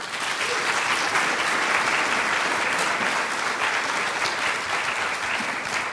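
Audience applause welcoming author Mary Karr to a lecture: a dense, even wash of clapping that holds at a steady, loud level for the whole stretch, with no voices.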